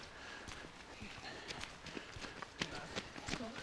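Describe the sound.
Three joggers run past on foot, their footfalls a faint, uneven patter of soft thumps over quiet outdoor background.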